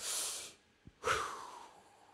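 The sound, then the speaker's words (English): A deep breath: a short, hissy inhale, a brief pause with a faint click, then a longer, breathy exhale that starts strong and gradually fades, with no talking. “why don't you just take a deep breath?”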